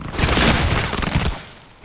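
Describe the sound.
A volley of gunfire fired on command bursts out as one loud, ragged blast of overlapping shots, then fades over about a second and a half into near quiet.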